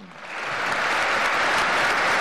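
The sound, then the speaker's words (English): Applause for Vladimir Putin at an investor forum swells quickly from quiet into a dense, sustained clatter of many hands, holding steady and loud to the end. “Applause is guaranteed whenever Vladimir Putin speaks to big investors.”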